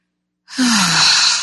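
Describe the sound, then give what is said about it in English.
One deep breath taken during a guided gratitude meditation. It is a long, loud, airy exhale with a faint voiced tone that slides downward in pitch, heard alone. “take a deep breath of gratitude”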